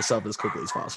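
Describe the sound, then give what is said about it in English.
A dog barks in short, repeated yips and woofs, several bursts across the second, heard beneath a person talking continuously over it. “I don't know if you guys can hear my dog barking.”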